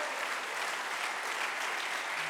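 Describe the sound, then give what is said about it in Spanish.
An audience claps hands during a bilingual church service, producing a dense, steady wash of applause that stays even in loudness throughout, with no pauses. “Let's clap our hands into him and bless his name.”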